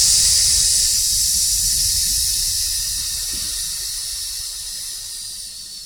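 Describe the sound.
A slow exhale pushed out during an abdominal breathing exercise makes a continuous, bright airy hiss that runs unbroken and gradually fades, over a faint low rumble.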